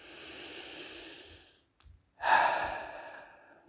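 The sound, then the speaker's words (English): A deep breath drawn slowly, a long soft rush of air that fades out, then after a brief silent pause a second, louder breath that swells and trails off. No talking is heard. “Okay, let's take a breath. Let's collect ourselves.”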